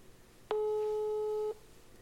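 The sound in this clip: A telephone ringback tone from a call ringing out on speakerphone: one steady, mid-pitched beep lasting about a second, with quiet before and after and no talking.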